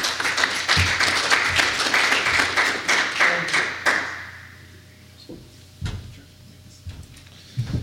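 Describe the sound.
An audience applauds a speaker being welcomed on stage at a cloud computing conference: dense clapping for about four seconds that then fades out, followed by a few isolated thumps and knocks in near quiet.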